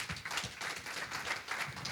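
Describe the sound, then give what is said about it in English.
A church audience applauds to welcome the pastor: dense, steady clapping of many hands, fairly quiet and even throughout with no talk over it. “So it's a good moment for us to welcome the pastor to come and share the word of God. Let's put our hands together.”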